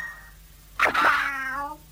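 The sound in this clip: A cat lets out one loud, drawn-out yowl. It opens with a harsh, noisy burst, then settles into a wavering tonal wail before it cuts off.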